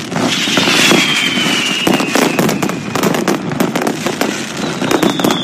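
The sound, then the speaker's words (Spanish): Mascletà firecracker barrage during the fallas in Ávila, a loud, dense stream of many sharp bangs and constant crackling. A high whistle glides downward through the first half. “Este es el sonido de la mascleta”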